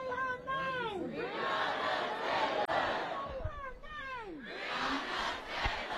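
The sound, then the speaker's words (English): A protest crowd shouts and chants in a loud, sustained roar. Many voices swell and sweep up and down together in repeated chant-like phrases. “Sometimes protest sounds like this.”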